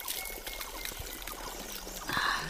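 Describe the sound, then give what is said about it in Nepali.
Water is poured to drink, making a steady, faint trickling stream that runs unbroken for a couple of seconds, heard alone. “खै छोड त, अलिकति पानी पिउनु पऱ्यो। ए हुन्छ हुन्छ, पिउनु न दिदी।”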